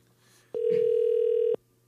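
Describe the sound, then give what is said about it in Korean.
Telephone ringback tone on an outgoing call: a single steady mid-pitched tone lasting about a second, clean and flat, over faint background hum. “제발 받아 주세요. 보이스 피싱 아닙니다. 너무 귀한 너무 중요한 전화예요.”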